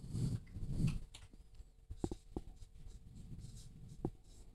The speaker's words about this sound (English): So I write choice down here somewhere.